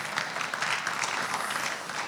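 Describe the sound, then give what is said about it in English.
Applause for a performer, many hands clapping in a dense, steady patter that holds at an even loudness for about two seconds without pausing. “Round of applause for Hugh for that.”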